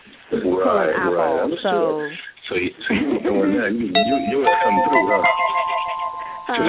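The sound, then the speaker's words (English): A phone ringtone imitating a cartoon doorbell rings from a red phone: bright electronic chiming tones step through a short melody, entering midway and continuing under steady women's talk. “Turn that phone. It is like that. That red phone. She got the Jetson thing. Yeah, that's my phone. With the Jetson doorbell.”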